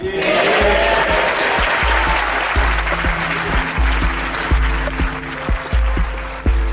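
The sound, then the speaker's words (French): Standing ovation in the House of Commons after a speech: thick, loud clapping runs throughout, punctuated by irregular low thumps, with some voices murmuring underneath. “Une longue standing ovation a suivi le discours de John Bercow lundi dernier à la Chambre des communes.”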